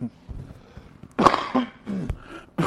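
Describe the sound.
A few short coughs go into a microphone as sharp, separate bursts spaced irregularly, with faint low sounds between them.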